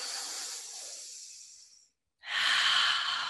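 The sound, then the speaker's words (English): Deep breathing during a guided breathing exercise: a long breath trails away into a brief silence, then a strong, full breath follows, airy and fairly quiet, with no voices. “Juicy breath in, juicy breath out.”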